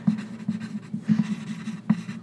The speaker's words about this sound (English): I'm writing it down. Okay, there.